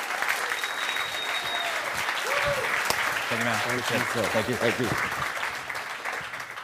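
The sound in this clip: An audience applauds to welcome a speaker onto a stage, with steady, dense clapping throughout and a voice talking over part of it.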